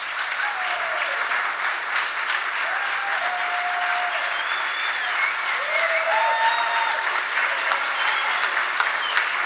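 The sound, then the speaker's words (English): Warm audience applause welcomes Congressman Earl Blumenauer at a Sunday morning event. The clapping holds steady and sustained throughout, with a few faint whistles rising above it. “Please give a warm welcome to Mr. Congressman Earl Blumenauer.”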